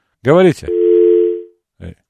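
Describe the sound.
After a call drops, a telephone tone sounds as one steady, low, even hum for under a second, preceded by a brief spoken word and followed by a short burst of voice.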